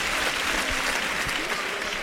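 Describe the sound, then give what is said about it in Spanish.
A bullfight crowd gives a sustained ovation: dense, loud applause that stays steady for the whole stretch without a break. “La ovación ha sido tremenda, ¿eh?”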